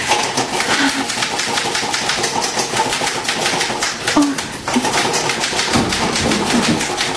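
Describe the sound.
Typewriter keys clatter in a fast, dense stream of sharp mechanical taps that keeps up steadily throughout, with no talk over it.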